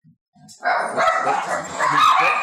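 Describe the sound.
A pet dog barks and yips excitedly while leaping around. It starts with a couple of faint short sounds, then gives a loud, continuous run of high, strained barking.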